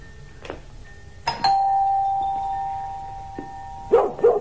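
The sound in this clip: A fierce dog barks behind the door of an upscale residence. A long, clear doorbell chime comes first, and then two sharp, loud barks burst out at the very end.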